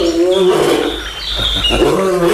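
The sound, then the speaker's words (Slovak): A man imitating a bear's growl with his voice, making loud, rough, throaty roaring in two long stretches separated by a brief dip midway, with no words. “Viete ešte mručať ako medveď?”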